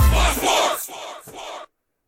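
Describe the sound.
A Penn State football crowd roars and chants loudly in a dense, sustained wall of voices, swelling in a couple of pulses before cutting off abruptly.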